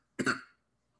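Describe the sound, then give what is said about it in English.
A single short, harsh cough bursts out of silence, loud at first and trailing off quickly into quiet. “You just cough like you never coughed since you've not been here.”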